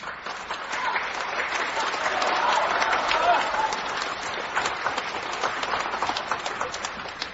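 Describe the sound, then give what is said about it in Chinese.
Audience applause at a live crosstalk comedy show, a dense, continuous patter of many hands that swells slightly in the middle and holds steady to the end. “谢谢大家掌声。”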